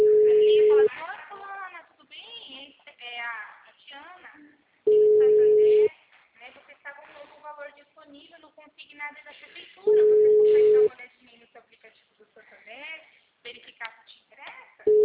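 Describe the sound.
A telephone call rings out with a steady, mid-pitched ringback tone sounding in even one-second pulses about every five seconds, three full rings and the start of a fourth, while people talk between the rings.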